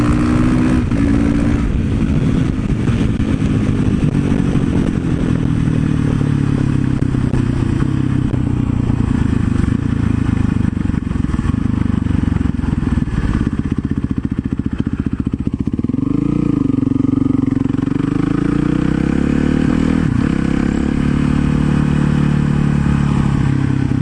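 A supermoto motorcycle revs and rides on the street, its loud engine running continuously and its pitch repeatedly climbing and dropping as the throttle opens and closes, with a clear dip and surge partway through.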